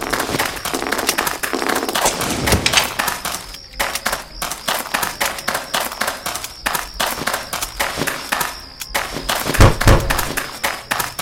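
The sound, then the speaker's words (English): Grenade explosions in a zombie video game: many sharp bangs and cracks with heavier thuds, arriving in rapid, uneven bursts, loud throughout. “Just a grenade.”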